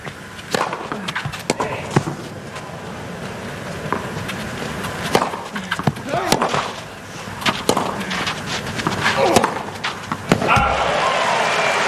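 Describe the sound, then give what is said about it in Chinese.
In a tennis match, the ball bounces and Sinner strikes a first serve, giving sharp, crisp impacts that repeat many times at uneven intervals over a steady background. “终于把一发发进去了，这也是本场比赛他的第一个拿到的这个一发赢球。”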